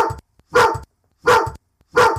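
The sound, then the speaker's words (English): A dog barks at a back door, giving a few sharp, loud barks in separate bursts with short silent pauses between them. “he's currently staring at the back door, barking at nothing.”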